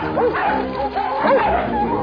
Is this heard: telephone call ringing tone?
no